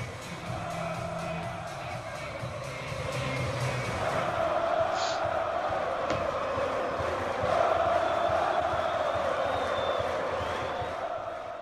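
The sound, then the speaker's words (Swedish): Swedish U21 national team supporters roar and chant in the stands, a sustained, dense crowd noise that holds steady and swells slightly louder through the middle and later part. “Men du, vilket publikstöd. Det är ju helt sjukt. Alltså, vad många det är som åker och följer U21-landslaget. Lyssna här på det här.”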